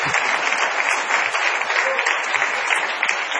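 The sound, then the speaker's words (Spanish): Applause from an audience for a sound technician: a dense, steady patter of many hands clapping, sustained evenly throughout with no clear rise or fall. “Apláudalo después, por si acaso.”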